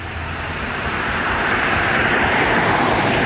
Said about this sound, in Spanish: Ahí viene un vehículo, ¿no? A ver si viene exceso de velocidad. Viene muy fuerte, mira, muy fuerte bajando.